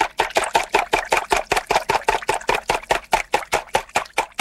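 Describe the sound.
An electric hand mixer stirring eggs and flour for pancake batter, a rapid, regular mechanical pulsing at about five beats per second that holds steady and fairly loud throughout, with no voices.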